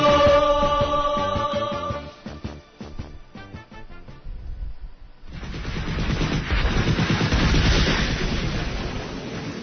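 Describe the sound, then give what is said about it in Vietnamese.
Deafening explosions in a wartime scene near a stone road where a battalion is camped: after a fading tonal passage, a dense rumbling burst of blasts swells up and rolls on through the second half. “Ba người lính thám sát nhìn về phía tây, hàng loạt tiếng nổ đinh tai nhức óc ở hướng con lộ đá nơi đóng quân của tiểu đoàn K5”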